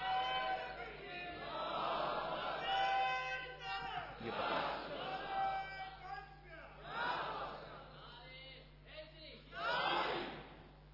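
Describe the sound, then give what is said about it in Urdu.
A crowd at a gathering loudly shouts a slogan in unison, in several swelling waves of chanting voices with short dips between surges. “آپ بولیں تو گفتگو ختم کر دو، بولو کچھ، ہاں ہوں تو کرو یار، جاری رکھے تو نعرہ مارو زوردار۔”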